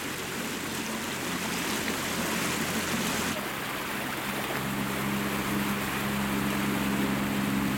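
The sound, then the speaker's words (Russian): A motorboat speeds up on open water, its engine roar mixing with rushing spray and wash. The sound stays loud and continuous, and a deeper engine drone grows stronger in the second half. “Лодка набирает скорость.”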